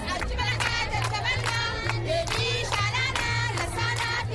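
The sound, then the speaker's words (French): Crowd singing a welcome song for a visiting delegation, performed by vulnerable residents at a report launch in Sido, a town on the Central African Republic–Chad border; many voices sing loudly and continuously in a steady rhythm. “C'est au rythme de cette chanson que la délégation a été accueillie sur le site par la population dite vulnérable au lancement de ce rapport”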